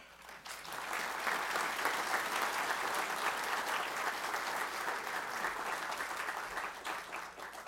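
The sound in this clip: Audience applause welcoming a guest speaker before a history lecture on lost communities of Virginia: faint, even, sustained clapping lasting about seven seconds and thinning slightly toward the end.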